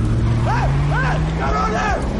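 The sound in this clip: A car speeds away, its engine note climbing in pitch as it accelerates, loud and mixed with voices and other busy street noise.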